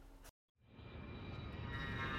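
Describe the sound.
Airplane in flight: a broad, steady engine roar that fades in after a short silence and then holds evenly, growing slightly fuller.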